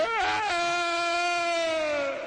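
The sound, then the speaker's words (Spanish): A single drawn-out vocal scream performed on request. It opens with a quick wavering dip in pitch, then holds a strong, steady tone that sinks slightly for about two seconds. “Haz el grito.”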